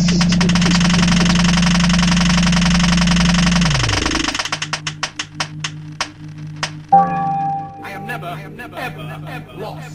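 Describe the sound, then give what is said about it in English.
A prize wheel spun for a game: a loud, steady whirring drone that drops away after about four seconds, then a run of clicking ticks that space out as the wheel slows, followed by a brief tonal sting. “So, are we ready to roll the Wheel of Who? Please be good.”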